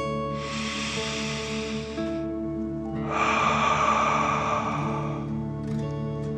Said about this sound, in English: Feel the warmth and take a deep dragon breath in and out.